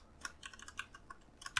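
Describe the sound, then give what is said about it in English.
Computer keyboard keys clack as a command is typed into an in-game terminal in a video game: many quick, faint clicks at an uneven pace, with a slightly sharper keystroke near the end and no talking. “And then type Q and hit tab. And it'll say query, then hit space, then type key, underscore, red, underscore.”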